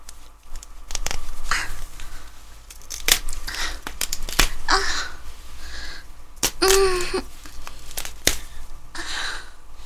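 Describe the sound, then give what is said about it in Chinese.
Nylon stockings are torn open from the middle, giving many sharp, irregular ripping bursts, with one brief squeaky stretch among them. “然后我现在再从中间，从丝袜的中间撕一个口子，”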